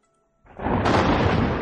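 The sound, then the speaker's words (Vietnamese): A thunderclap from lightning, one of nine tribulation bolts striking a cultivator: silence, then a sudden loud, broad crash that swells and stays as a dense rumbling roar to the end. “9 đường lôi kiếp lần lượt đánh vào người Diệp Mặc.”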